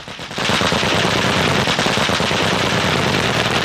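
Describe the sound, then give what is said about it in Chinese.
Several anti-aircraft guns fire long bursts together during a military drill against aerial targets, a dense, loud, unbroken roar of rapid shots that holds steady throughout. “多门高炮同时开火，拦截空中来袭目标”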